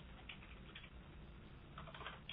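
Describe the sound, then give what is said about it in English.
Someone types on a computer keyboard, producing a faint, rapid patter of many light key clicks over a low, steady hiss. “Typing a list of slides as I talk”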